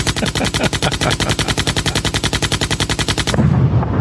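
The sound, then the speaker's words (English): A machine-gun drum roll sound effect rattles as a long, loud, steady stream of rapid shots for over three seconds, then breaks into a rough burst of noise at the end. “Hold on. I have the machine gun drum roll. Oh, the machine gun drum roll.”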